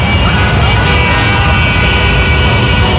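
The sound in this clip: Traffic jam noise for an advertisement: a loud, unbroken roar of idling and creeping vehicles, steady throughout with a faint high whine above the dense rumble.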